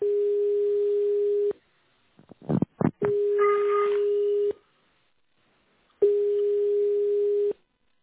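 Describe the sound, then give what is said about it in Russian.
Telephone ringback tone while a call waits to be answered: three long, steady mid-pitched tones of about a second and a half each, separated by pauses, with a few brief clicks and noise bursts between the first two. “Продолжаю вызов. Оставайтесь на линии. Абонент еще не взял трубку.”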